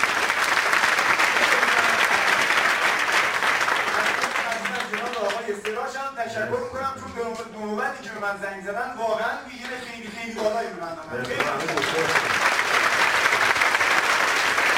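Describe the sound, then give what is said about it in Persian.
Audience applause at a talk about team building: loud, dense clapping that dips while a voice speaks over it in the middle, then swells back to full clapping at the end. “تشویقش کنم”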